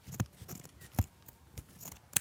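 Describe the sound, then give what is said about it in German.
Scissors snipping as a round neckline is cut out for a bag, the cutting going stiff and heavy; a few crisp, separate snips at uneven intervals, fairly quiet, with no voices. “Und jetzt noch den Ausschnitt schön rund ausschneiden. Das geht dann schön schwer.”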